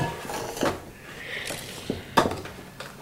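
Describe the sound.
Scooping sugar to make a sugar egg: a few faint scrapes and light clinks of a spoon against a container and mold, spaced irregularly over soft background noise.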